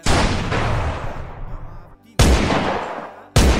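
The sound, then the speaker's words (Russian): Gunfire in a mountain gorge during a fight: a few heavy, loud shots, each with a long rumbling decay, arriving one after another. “Раздались выстрелы, засвистели пули, и в один миг ущелье наполнилось густым дымом.”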